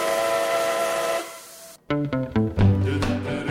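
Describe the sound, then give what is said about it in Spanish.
Steam train whistle sounding as the train is about to depart: a loud, sustained, steady hiss-edged tone that cuts off abruptly, followed by music starting. “Pues bien, el tren a punto de salir, a punto de salir.”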